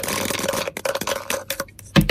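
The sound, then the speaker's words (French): Dice rolled for a board game: a quick rattling clatter of small, hard knocks that ends with one louder hit. “je vous invite à lancer les dés, à donner le top. Eh bien, c'est parti.”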